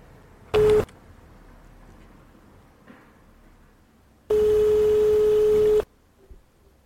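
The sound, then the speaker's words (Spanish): A telephone call tone plays while a call is being placed: a short electronic beep, a quiet stretch of line hiss, then a longer steady tone lasting about one and a half seconds before it cuts off. “Si no nos coge la llamada, pues voy a probar con Eva, a ver si está disponible.”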